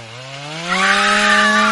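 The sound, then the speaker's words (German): A chainsaw engine runs loud and steady, its pitch climbing as it revs up partway through and then holding at the higher pitch to the end. “Kettensäge gepaart mit Schrei. Ich muss sagen, bis zum Schrei habe ich mir gedacht, okay, da schneidet halt wer Bäume um, aber nein.”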